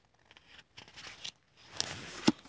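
Pages of a Psalms book being shuffled through: soft, quiet paper rustling in uneven bursts, with a few sharper flicks of turning pages near the end and no talk.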